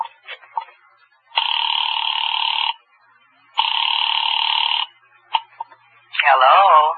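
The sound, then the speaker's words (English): A telephone rings on the line after a number is dialed. A few brief dialing tones come first, then two long, even ringback tones separated by a pause. Short tone blips follow, and a voice answers at the end. “found the phone. I dialed Bradshaw 7711 and waited.”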